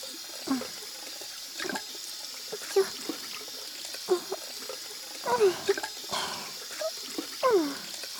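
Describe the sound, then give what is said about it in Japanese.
Running tap water pours steadily while hands are rinsed of soap foam and scrubbed under the nails, with a few louder splashes and rubbing sounds breaking the constant flow. “爪の中の泡も全部しっかりきれいにするよ。”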